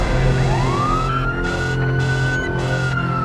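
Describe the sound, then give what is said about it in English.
A fire truck siren wails loudly in a long rising sweep that levels off and holds steady, over a constant low rumble. “The fire truck stops in front of Kara's house.”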